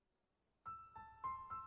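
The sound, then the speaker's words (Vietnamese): Cicadas in summer countryside make faint, rhythmic buzzing pulses over a thin, steady high tone. “Trong cái nắng oi ả của mùa hạ, những tiếng ve kêu rền vang một vùng làng quê thanh bình.”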